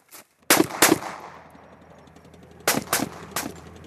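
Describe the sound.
Five loud gunshots ring out at a military shooting exercise at a Norwegian army camp after magazines are loaded: two shots close together, a pause, then three more, each with a ringing decay.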